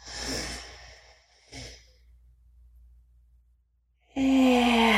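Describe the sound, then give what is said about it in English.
A deep breath drawn in through the nose during a guided breathing exercise: a soft, airy inhale lasting about a second, then a brief fainter puff of breath, a quiet stretch, and a loud voiced sound at the very end. “we're going to take a deep breath in through the nose.”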